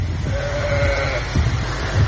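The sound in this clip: A sheep bleats once, a clear sustained cry, from a livestock pen as heavy rain drives a mudflow through a village in Kyrgyzstan's Jalal-Abad region, over a constant low rumble.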